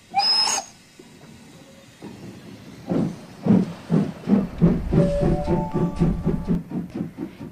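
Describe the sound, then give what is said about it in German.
A train moves along platform 3 at Innsbruck main station. A brief hiss is followed by a rhythmic clatter of many wheel beats, with a faint whining tone running through the later part. “Innsbruck Hauptbahnhof, Sie befinden sich auf Bahnsteig 3.”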